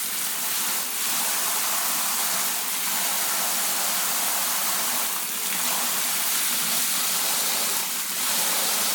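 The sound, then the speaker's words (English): Water rushes steadily from a shower attachment into a filling bath that has bubble bath in it, a loud, continuous hiss and gush of spray with no talking. “It's nice to use the shower attachment because it makes lots of lovely bubbles in the bath.”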